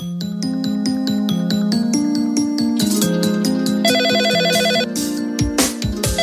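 A telephone ringtone signals an incoming call, a loud, repeating electronic melody over a steady pulsing beat that plays alone, its tune shifting partway through.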